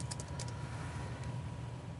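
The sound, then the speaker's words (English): Faint taps on a computer keyboard as a search term is typed into a website, a few quick clicks early on and one more later, over a steady low hum. “So here I'll type in Microsoft.”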